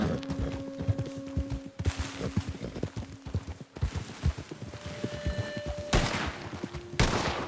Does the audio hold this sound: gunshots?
yes